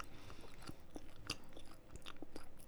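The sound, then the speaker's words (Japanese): Quiet chewing of food while someone eats, a string of soft, irregular crunches and bites with no talk. “はい、ちょっと食べながらだとお行儀は悪いので。食べ終わったら。”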